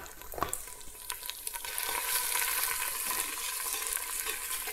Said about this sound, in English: Just roughly heat up the pesto. Maybe bring up some of the flavor. Maybe a bit more oil actually.